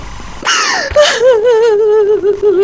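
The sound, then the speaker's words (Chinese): A woman cries during a tense family quarrel over gambling debts: a sharp gasping intake, then a long, wavering, sobbing wail that slowly sinks in pitch and trails on unevenly. “行了，别哭了啊！”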